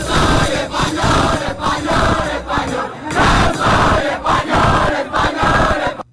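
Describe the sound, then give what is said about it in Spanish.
A crowd of Spaniards chants "Español" in unison, loud and forceful. The voices come in many repeated rhythmic bursts with brief dips between them. “un grupo de españoles se juntaron para gritar al unísono... ¡Español, español,”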